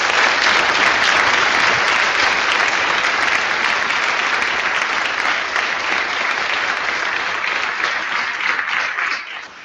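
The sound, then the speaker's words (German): Audience applause at a conference, honouring the organising team: dense, steady clapping from many hands that holds evenly for several seconds, then thins and drops off at the very end. “Einen dicken Applaus.”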